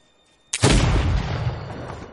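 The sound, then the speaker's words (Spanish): A single rifle shot fired at a man crossing a plain, a sudden loud boom after a brief quiet that rolls on into a long, heavy, slowly fading rumble. “Desde lo alto de una colina, alguien le apunta con un rifle.”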